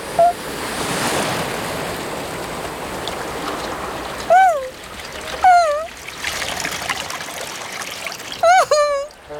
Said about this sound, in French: Voilà une grosse vague.